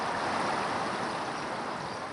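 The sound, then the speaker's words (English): Water flows beneath the memorial benches outside the Pentagon as a soft, continuous rushing wash, quiet and steady throughout, with no voices. “Today, 184 memorial benches stand outside the Pentagon, one for each victim. The water beneath them flows for 23 hours and 59 minutes each day.”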